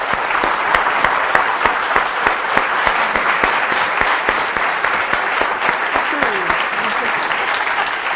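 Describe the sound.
Audience applause welcomes a speaker at a UCSB talk: dense, steady clapping fills the whole clip at an even, loud level without letting up.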